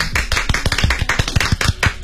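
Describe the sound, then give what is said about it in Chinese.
Clapping from a small group in a radio studio, a rapid run of many sharp, distinct individual claps in an uneven rhythm, loud and without talk. “谢谢 各位所有人鼓掌”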